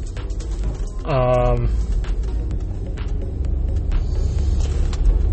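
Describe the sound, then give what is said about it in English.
Deep, continuous engine rumble from a tall vehicle driving into a parking garage, a steady low drone, with a short voice-like sound rising over it partway through. “Am I too tall for this? I'm getting nervous. I feel like my tall vehicle is going to run into the roof.”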